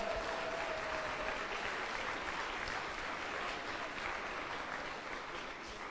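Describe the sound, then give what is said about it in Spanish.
Audience applause from the women in an audience during a sermon: dense, steady clapping that holds throughout and eases slightly near the end. “Señoras, den un aplauso.”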